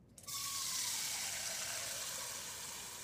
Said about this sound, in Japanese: お風呂も広くていい感じ。お湯入れるね。